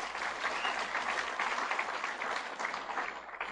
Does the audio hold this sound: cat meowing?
no

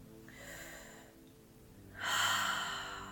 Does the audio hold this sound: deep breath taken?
yes

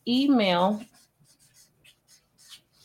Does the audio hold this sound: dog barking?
no

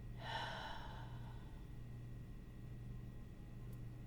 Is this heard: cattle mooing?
no

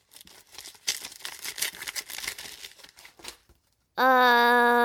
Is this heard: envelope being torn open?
yes

